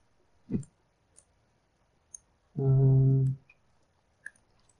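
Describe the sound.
Computer mouse clicks come through as a few faint, sharp ticks, spaced irregularly with quiet gaps between them.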